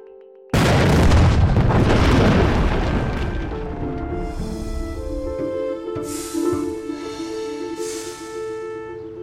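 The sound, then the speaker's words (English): Explosion from blasting set off during a treasure dig: one loud, deep blast bursts in just after the start, then rolls into a long rumbling decay that fades slowly over the remaining seconds. “Fire in the hole.”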